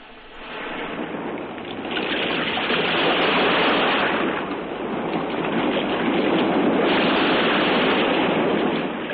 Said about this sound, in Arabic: آثر وسام أن يكون صوت الموج هو البطل.